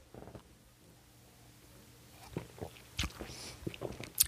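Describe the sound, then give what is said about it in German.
A quick sip of a drink, faint and soft: small slurping and swallowing mouth noises cluster in the second half, ending with a slightly louder click. “Vorher nehme ich noch einen kurzen Schluck hier.”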